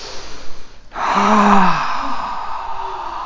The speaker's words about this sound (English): Breath in, breath out, breath out,